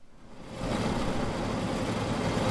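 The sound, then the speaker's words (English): A massive combine harvester drives through a field of great northern beans on a North Dakota farm at harvest time. Its engine gives a broad, noisy rumbling roar that swells in the first half second and then holds steady. “Alan Juliason is driving his massive combine through more than 400 acres of great northern beans”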